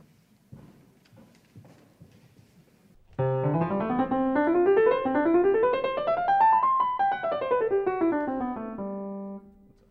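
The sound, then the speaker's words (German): Beethoven's last variation in C major, played with bright sustained notes in ascending scales that climb steadily, peak and then descend before settling on a held tone, after a few soft, scattered sounds at the start. “Die letzte Variation in C-Dur mit ihren aufsteigenden Tonleitern könnte für christlich geprägte Empfindungen eine Art Himmelfahrt versinnbildlichen. Ich spiele ein paar Takte.”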